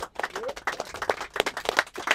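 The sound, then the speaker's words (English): Audience applause after a music beat is played at a feedback session, with dense, uneven clapping and a few voices mixed in, steady for about two seconds. “Illmind lets it play for a minute or two, turns it off, everybody applauds,”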